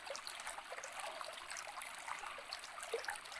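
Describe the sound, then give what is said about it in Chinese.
Gentle flowing water from a stream, a faint, steady trickling and babbling wash with no voices. “你就把你的注意力放在这个流水的声音上”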